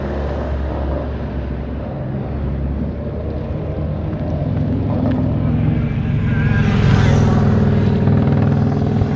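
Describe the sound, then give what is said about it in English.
Traffic rumbles at a working gas station as a loud, steady low engine drone with broad road noise. It swells briefly as one vehicle passes late on, with no talk. “See, this is a functioning gas station.”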